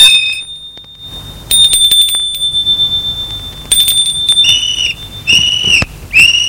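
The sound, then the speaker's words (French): Bell rung at a property gate: a series of bright, high metallic rings in separate bursts, some sustained and ringing on, others short and sharp. “Arrivé à la propriété, il sonne au portail.”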